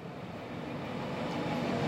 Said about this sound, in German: Der nächste Zug aus Italien, es ist ein Eurocity, der von Mailand kommt, nehmen wir.